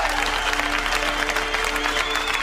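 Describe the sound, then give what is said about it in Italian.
Long applause from thousands of people crowded around a well: a dense, steady roar of clapping holds at an even, loud level from start to finish. “Le migliaia di persone assiepate attorno al pozzo accolgono l'annuncio con un lungo applauso.”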